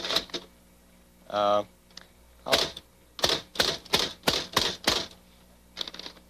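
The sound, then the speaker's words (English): Typewriter keys clack as a name is typed out. Sharp, separate strikes come in an uneven rhythm, with a few early taps, a short pause, then a quicker run of loud clacks and one last tap. “That's the way Reardon's name looks when you type it out.”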